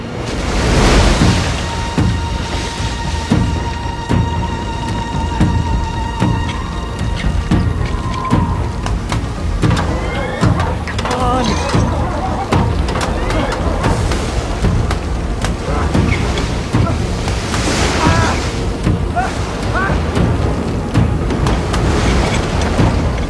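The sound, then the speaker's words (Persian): A storm at sea roars with crashing waves and wind, a dense, loud and unbroken wash of noise that lasts throughout, with a steady tone held briefly near the start. “طوفان شروع شد.”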